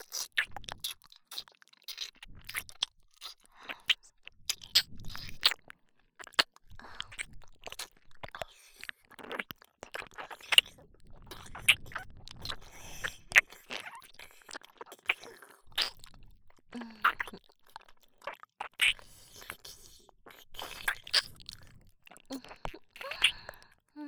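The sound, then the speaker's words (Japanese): Wet mouth sounds of sucking at the back of the teeth: many irregular clicks, smacks and slurps, close and quiet, spread across about twenty-four seconds with no talk. “歯の裏をしゃぶるように。”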